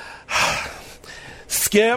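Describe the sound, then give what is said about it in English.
A loud, deep inhalation performed as an imitation of Skip Bayless, with a long, breathy intake, a second shorter breath, and then a brief voiced sound at the end. “I feel like Skip Bayless, I'm doing a deep breath.”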